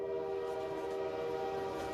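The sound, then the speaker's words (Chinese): Horn of an oncoming train heading straight toward the listener, a loud steady sustained tone held through the whole moment. “忽然，孩子们发现一列火车迎面开了过来。”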